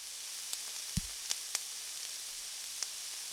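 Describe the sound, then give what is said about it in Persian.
Cutlets fry slowly in a pan with a soft, steady sizzle broken by a few faint crackles and pops. “کتلتا داره آروم توی مایتابه سرخ میشه.”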